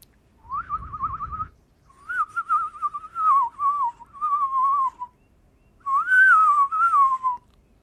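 A person whistling a bird call to lure birds while birdwatching: several warbling, trilled phrases at a mid-high pitch, separated by short pauses. A brief low rumble sits under the first phrase.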